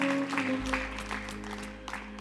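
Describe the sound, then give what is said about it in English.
An audience claps hands in praise during a church service, a dense, steady wash of clapping over sustained low musical tones throughout. “If God is worthy, can we give Him a hand clap of praise?”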